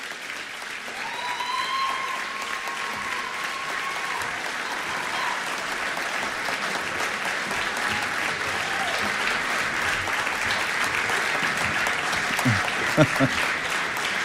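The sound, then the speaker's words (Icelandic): An audience applauds a big band that placed third in a competition: steady, dense clapping throughout, growing slightly fuller toward the end, with some voices briefly audible early on. “Klöppum vel og vandlega fyrir þeim.”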